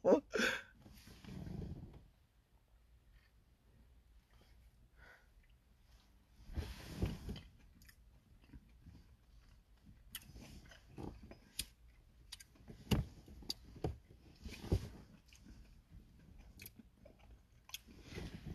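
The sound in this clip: Someone chews gummies with soft, moist, squishy bites that come in irregular bursts separated by quiet gaps. The sounds are faint and close.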